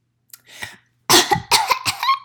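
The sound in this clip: A fit of coughing: two faint coughs, then several loud, harsh coughs in quick succession, with no talk.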